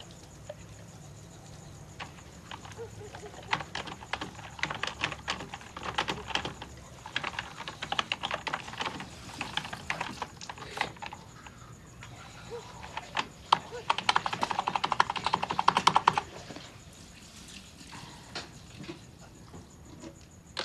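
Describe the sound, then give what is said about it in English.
Typing on a computer keyboard, quiet irregular runs of key clicks broken by short pauses, with a denser burst of tapping late on before the clicking thins out. “She pauses to think again before resuming typing.”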